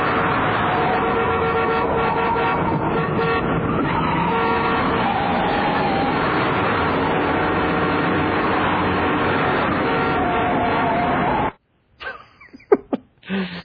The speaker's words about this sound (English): that's got to be from the car, because that's a car horn.